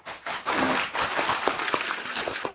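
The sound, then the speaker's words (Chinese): Audience applause breaking out at a teaching session: a dense patter of claps that starts abruptly, holds for about two seconds with a few sharper claps standing out, then cuts off. “鼓掌。”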